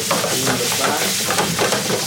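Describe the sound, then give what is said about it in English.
A spatula scrapes the bottom of a saucepan of spaghetti that is sticking and burning to black bits, with steady gritty scraping and sizzling that runs continuously throughout. “So now he's really using the spatula to like scrape the bottom of the pan. The spaghetti is starting to stick to the pan, which is good, right?”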